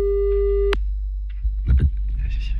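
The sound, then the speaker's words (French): A telephone call tone sounds as one steady, pure electronic beep that cuts off abruptly, followed by a few faint clicks and handling noises. “Attention, on appelle.”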